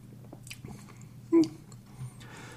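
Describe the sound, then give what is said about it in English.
Biting into a thick, flaky cinnamon biscuit held upside down: a single crisp bite stands out against faint, quiet chewing, and a softer crunch follows a moment later. “Let me do something wacky here. I'm going to eat it upside down, so that way more of the cinnamon stuff hits my tongue.”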